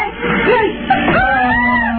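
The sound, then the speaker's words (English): A girl screams in a movie, a sustained, wavering, high-pitched cry whose pitch rises and falls, fairly loud and somewhat dull in tone. “It must be one hell of a movie this guy's got. This girl's screaming her head off.”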